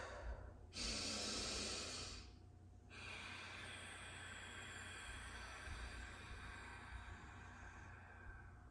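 Ujjayi yoga breathing, drawn in through the nose and let out through the nose with the back of the throat constricted: a loud, rushing breath of about a second and a half, then a longer, softer, steady breathy hiss.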